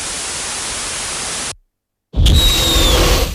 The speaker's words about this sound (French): j'ai pas réussi à retrouver exactement le même son de jet, d'un son d'une fréquence de 20 Hz, alors ça, il vous faut un bon système son pour l'entendre, et d'un bruit blanc.